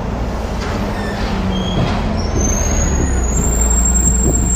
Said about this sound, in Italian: Ecco l'autobus.